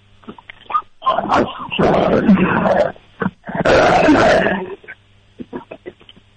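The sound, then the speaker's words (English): A dog's deep, rough growl that sounds like a tiger's roar comes in two long, loud, sustained bursts. Shorter huffs and grunts come before, between and after them. “That dog sounds like, you sure that's a dog? Yeah. Sure that's not a tiger?”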